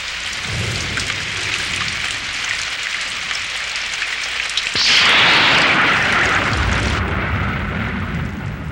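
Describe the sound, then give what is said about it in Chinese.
Heavy rain pours as a typhoon approaches, a dense, continuous hiss that swells noticeably louder partway through and then settles back to a steady downpour, with no voices. “啊，终于下雨了，台风好像会来的样子。”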